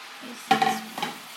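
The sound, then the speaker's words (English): Brown sugar being stirred into a melted mixture in a pan: two short scraping strokes over a soft sizzle, the first louder than the second. “So once that's melted, we're going to add in the sugar,”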